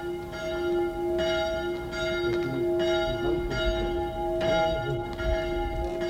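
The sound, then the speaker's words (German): A small church bell rings in a village piazza in Meolo, Italy, struck over and over at a steady, unhurried pace, each bright strike ringing on over a low background rumble. “Diese kleine Glocke hörte ich, als ich über die Piazza in Meolo ging”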